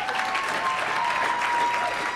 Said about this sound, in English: So please, I know it's cheesy, but give yourselves a round of applause because you got out of the Mormon cult.